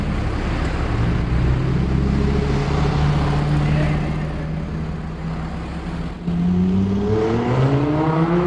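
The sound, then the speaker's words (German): A white Lamborghini sports car in Hannover pulls off with a low, steady droning engine. Then it accelerates hard, and the engine note climbs sharply over the last couple of seconds. “Was ihr da gehört habt, war ein weißer Lamborghini.”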